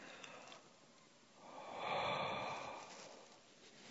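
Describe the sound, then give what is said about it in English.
A single slow, hot exhale of breath, soft and airy, swelling to a breathy peak midway and then fading away. “And I breathe a hot breath on your panties.”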